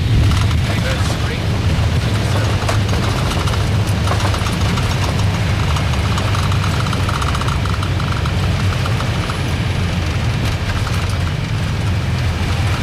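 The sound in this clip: An airliner's jet engines keep running after landing, just before shutdown, as a steady, loud, unbroken roar with a deep rumble underneath that holds at one level throughout.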